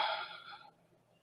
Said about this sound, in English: Deep inhalations in through the nose. Really fill the whole low belly. Nourish the body here on the inhale. And then let go of anything that no longer serves you on the exhale.